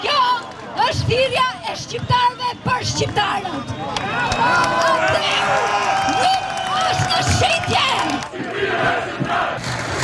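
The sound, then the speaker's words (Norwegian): Protesters in Tirana demonstrate against permission to build a luxury resort in a coastal nature reserve. A large crowd roars and shouts in a loud, dense din, with chanting voices and scattered yells that swell and stay strong throughout. “Folk protesterer, sånn høres det ut,”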